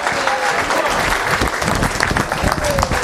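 Audience applause welcomes a doctor onto the stage at an event in San Diego: dense, sustained clapping from a crowd, with cheering mixed in, running loud and even for about three seconds.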